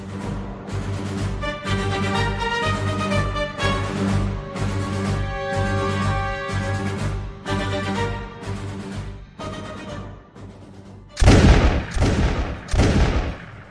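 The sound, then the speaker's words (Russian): Rifle gunfire from Russian riflemen advancing on Turkish positions in a battle: a few loud, sharp blasts burst out near the end, following a long stretch of sustained, steady music. “Звучали выстрелы русских стрелков.”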